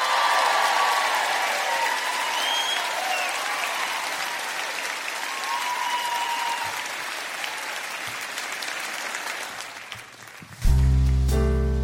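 Warm audience applause welcomes a singer at a Christmas show, a full sustained clapping that gradually thins and softens over about ten seconds before music begins at the very end.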